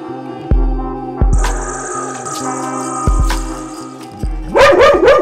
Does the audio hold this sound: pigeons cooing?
no

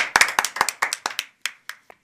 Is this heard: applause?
yes

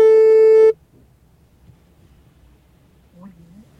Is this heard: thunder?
no

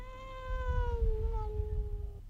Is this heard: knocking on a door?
no

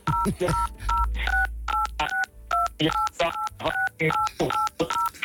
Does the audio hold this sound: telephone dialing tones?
yes

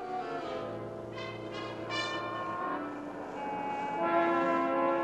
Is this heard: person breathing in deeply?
no

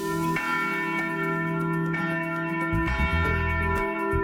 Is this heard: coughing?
no

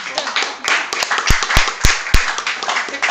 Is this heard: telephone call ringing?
no

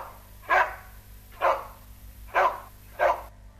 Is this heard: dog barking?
yes

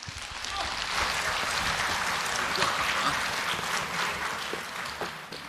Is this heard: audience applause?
yes

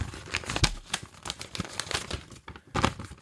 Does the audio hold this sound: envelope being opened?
yes

